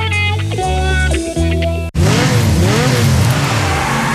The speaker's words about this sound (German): Eigene Rennstrecke im Garten.